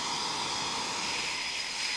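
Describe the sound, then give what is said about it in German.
Eurofighter jets standing with engines running while they wait for a takeoff slot: a steady, even roar of hiss with a constant high whine over it, unchanging throughout. “10 bis 15 Minuten stehen die Jets jetzt hier noch mit laufenden Triebwerken.”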